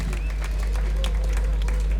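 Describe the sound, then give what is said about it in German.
An audience applauds at a concert event, with dense, steady clapping that fills the whole short stretch without a break. “Heute ist es Oxen schon mal sehr, sehr cool und herzlichen Applaus für das. Sehr schön. Sehr schön.”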